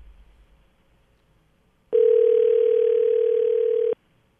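Telephone dial tone on a call placed to a listener: a single steady, mid-pitched tone of about two seconds, clean and loud, starting and stopping abruptly after near silence.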